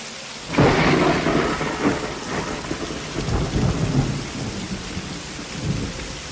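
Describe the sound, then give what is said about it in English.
Thunder rumbles through a thunderstorm with heavy rain: a loud crack opens it, lower rolls of thunder follow, and a steady hiss of rain runs throughout. “She enters a cave and sits down, hugging her knees as more lightning flashes.”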